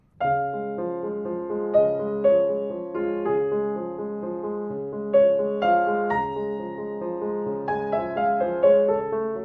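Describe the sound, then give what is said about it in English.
Piano plays the melody of Chopin's D-flat Nocturne Op. 27 No. 2 over a steady Alberti bass of broken chords, flowing at a moderate, even volume with gentle melodic accents. “If we take the great D-flat Nocturne Opus 27, number 2, and we put an Alberti bass under it, it might sound something like this.”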